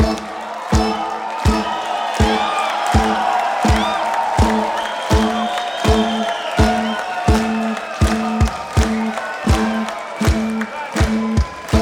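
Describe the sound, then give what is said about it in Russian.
Audience at a stage show clapping in a steady, even rhythm with crowd cheering. Regular sharp beats repeat many times throughout over a continuous layer of crowd noise. “Дорогие друзья, под ваши бурные аплодисменты на сцену выходит...”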